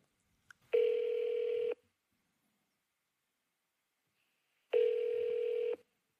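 Two telephone line tones on a motel phone line as a call is transferred to the operator. Each is a steady buzzing tone about a second long, separated by a gap of roughly three seconds, with a faint click just before the first.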